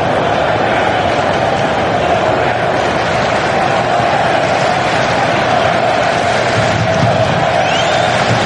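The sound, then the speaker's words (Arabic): English football fans roaring and cheering in the stadium stands during an England versus Norway match, a loud, dense, unbroken crowd din that holds steady throughout. “وفي المدرج هناك مباراة ما بين الجماهير الإنجليزية الأكثر عددا بطبيعة الحال.”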